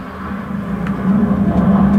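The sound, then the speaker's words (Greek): An airplane passing overhead makes a low, steady droning rumble that swells gradually louder over the two seconds, with no talking. “Τι είναι αυτό, καλέ? Αεροπλάνο. Πόλεμος. Όχι, αεροπλάνο.”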